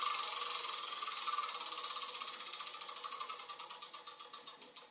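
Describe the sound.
A spinner whirs in a mobile board game within a video game, giving off a fast run of bright ratcheting clicks that gradually spread apart and soften as the spin winds down.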